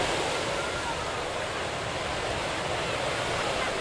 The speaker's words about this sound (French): Tandis que l'eau s'écoulait des robinets dorés et se déversait lentement dans la baignoire de marbre blanc